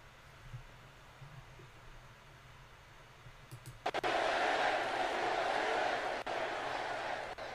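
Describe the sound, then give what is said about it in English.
A crowd cheer erupts suddenly after a quiet stretch with faint scattered sounds, becoming a loud, sustained roar that holds steady to the end. “I thought you had it won, and then I heard this cheer. My eardrums will never be the same.”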